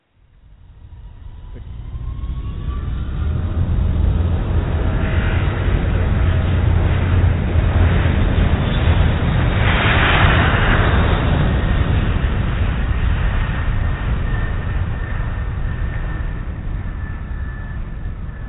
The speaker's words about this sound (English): Eastern Flight 241, you're cleared for takeoff. Okay. Eastern Flight 241, Roger, cleared for takeoff.